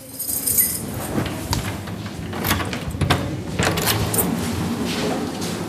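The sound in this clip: Key turning in the lock of an office door, heard as a few metallic clicks, jingles and rattles of the latch over a steady background hiss, with no talk.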